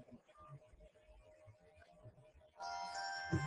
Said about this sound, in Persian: ساعت ندارم گذاشتم ساعتش رو من خاموشش نمی‌کنم دوباره حالا زنگ